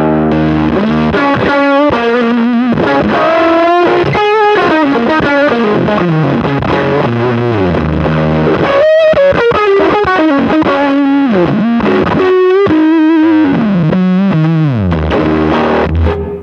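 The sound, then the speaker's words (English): An electric guitar played through a fuzz pedal into an amp blares thick, saturated distortion, with sustained, sliding notes and chords ringing continuously at a loud, steady level, with no voices. “The way I have everything else gain staged works great, and then when I kick on the fuzz, it doesn't get me over the hump quite as well. But just tonally, it's sick.”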